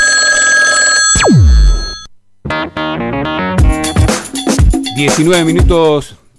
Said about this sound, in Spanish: Ya hemos llamado a un teléfono de la característica 71, correspondiente a Palermo.